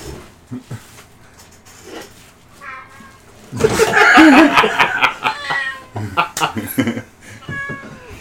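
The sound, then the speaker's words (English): A female jungle cat in heat meows repeatedly, with drawn-out, wavering cries that swell loudest midway. People talk and laugh softly around the calls. “The cat came back in. The jungle cat has made it back in. Went to the window sill where I thought it was going to, like, stay for a while. She's making sounds like she's in heat.”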